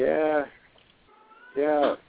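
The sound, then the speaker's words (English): An angry cat meows twice, each call loud, drawn-out and harmonically rich, with a quieter pause of about a second between them. “The Rapture Kitty's talking to us.”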